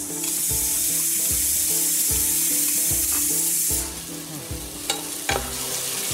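Onions and tomatoes sizzle in a pan for dhansak: a loud, continuous frying hiss with stirring, easing partway through, followed by a few sharp scraping clicks.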